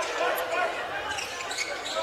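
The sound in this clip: A basketball is dribbled on the court during a game, its bounces blurred into a dense, steady wash of sound under a man talking throughout.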